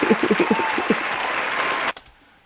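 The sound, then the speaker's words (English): A television studio audience gives a round of applause, a dense steady patter of clapping that cuts off abruptly after about two seconds, leaving near silence. “Our studio audience really appreciate that. So they're gonna give you a round of applause.”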